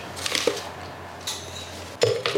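A few light clinks and scrapes of a scoop against a bowl as maltodextrin powder from a tub is weighed out on a kitchen scale, with soft rustling between the knocks and no talking.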